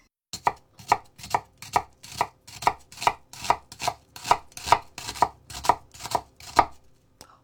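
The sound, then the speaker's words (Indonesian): A knife chopping an onion finely on a cutting board, first halved and sliced lengthwise then crosswise into small pieces. Many crisp, evenly spaced strikes fall in a steady rhythm, with no talk over them. “Bawang dipotong dua secara memanjang. Iris tipis memanjang, lalu iris lagi melebar sehingga menghasilkan cencangan yang kecil-kecil.”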